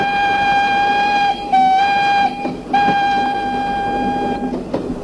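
Steam locomotive sounding a long, steady, whistle-like tone rich in harmonics, held for most of the five seconds with a few brief breaks, over a low rumbling background.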